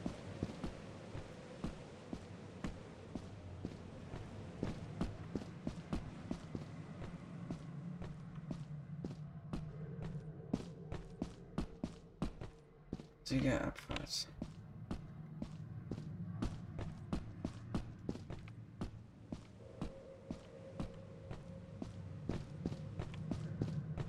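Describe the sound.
Footsteps of a player character walking in the video game Lethal Company: many steady, evenly spaced thuds over a low rumbling background, with a brief noisy burst partway through.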